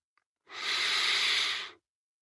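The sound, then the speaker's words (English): A single slow, deep breath, a soft airy rush lasting just over a second, faint and alone with no talk around it. “Close your eyes and take a deep, deep breath.”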